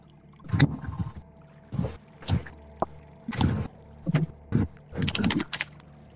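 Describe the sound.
A boat moving on water, with soft splashes and sloshes arriving in a series of irregular short bursts separated by quiet gaps, fairly faint overall.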